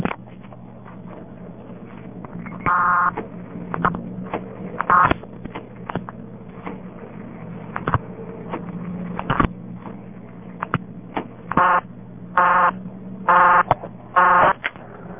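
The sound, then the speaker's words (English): Telephone dialing heard down a phone line to a payphone number: several short tone bursts at uneven intervals over a steady low line hum with scattered clicks, and no talk. “I'll dial the payphone number.”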